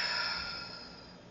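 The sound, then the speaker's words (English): A deep, slow exhale from a guided breathing exercise, breathed out through the mouth. The soft, airy rush of breath gradually fades over about a second. “Taking an intentional breath in through the nose and out through the mouth.”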